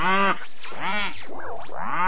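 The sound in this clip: Cow mooing from a bark translator gadget: a run of drawn-out, lowing moo calls with a wavering pitch that rises and falls, several calls blending into one another.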